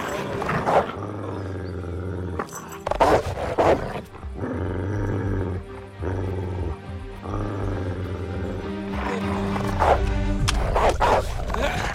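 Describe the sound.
Dogs bark and growl while chasing in a foreign film scene: many loud, harsh barks and snarls burst out over a dense, continuous roaring background.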